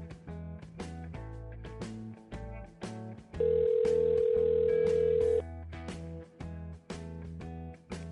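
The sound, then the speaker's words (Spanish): During a random call to an unknown number, one long, steady telephone ring tone lasts about two seconds. Rhythmic background music plays before and after it. “Y ahora os dejamos con nuestra llamada al azar a un número desconocido y nos despedimos con el resto de comentarios.”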